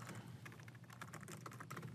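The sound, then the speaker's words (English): Fast typing on a computer keyboard during coding, a quiet, dense patter of many quick keystrokes with no voices. “You try to type too fast to impress people and it just ends up making you look silly.”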